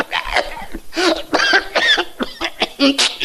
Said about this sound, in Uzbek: Bir otaxon betob bo'lib qoptilar. Yo'taladigan bo'lib qoptilar.